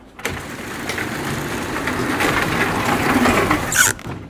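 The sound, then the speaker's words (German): A motorised roller door, one of several on the way to an event hall, runs with a steady rattling mechanical rumble for about four seconds, ending with a brief high squeal. “dieses Rolltor, also es gibt halt hier so mehrere Rolltore, die immer hoch und runter gefahren werden, um zu diesem Veranstaltungsraum zu kommen. Das war so das erste prägende Geräusch, was mir eingefallen ist.”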